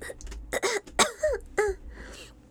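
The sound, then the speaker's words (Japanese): Coughing and throat clearing close to a microphone: a few short rough bursts separated by brief pauses, moderately loud with some voiced grit. “咳出ちゃった。”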